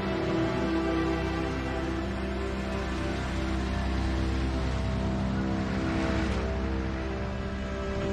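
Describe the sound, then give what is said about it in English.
A construction vehicle carrying a bucket of dirt on its boom drives toward a pool, its engine a steady, loud, low drone that holds without pause throughout. “Eve nods as a construction vehicle drives toward the pool with a bucket of dirt on its boom.”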